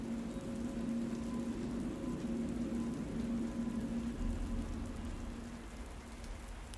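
Heavy afternoon rain falls steadily as a dense, even hiss with a soft low rumble beneath. It holds at a constant level and eases slightly near the end.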